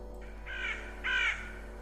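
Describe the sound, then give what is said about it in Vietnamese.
A black crow on a roof gives two harsh, eerie caws in quick succession, the second louder than the first, over a faint steady hum. “đột nhiên ở trên mái nhà có một con quạ đen. Nó kêu lên những tiếng ghê rợn, rồi nó bay vút lên trên bầu trời.”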